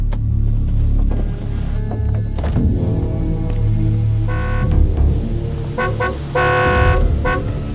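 A car horn honks outside a parking garage and auto repair shop, giving a few loud, bright toots over a steady low engine rumble, with the last honk held longest.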